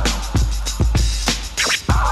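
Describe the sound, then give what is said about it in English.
A DJ scratches a record sample back and forth in a few quick, loud strokes. Each sharp sweep rises and falls in pitch, with thumps between the strokes. “one of which features DST scratching a sample of the song they had created earlier. Soon producers around the world wanted that scratch sound”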